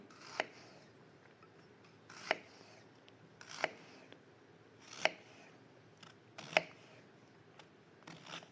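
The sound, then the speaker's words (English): Knife chopping an onion on a cutting board, a handful of sharp, crisp cuts spaced slowly and unevenly apart, fairly quiet and with no talk. “Basically what I do is I, you know, cut the onion just so.”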